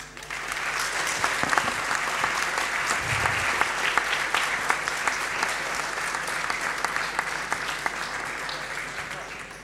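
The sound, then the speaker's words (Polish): Sustained audience applause after a team presentation: dense, steady clapping that holds an even, loud level for the whole stretch without letting up. “To są brawa dla Państwa że za to, że uciągnęliście ten temat i daliście radę.”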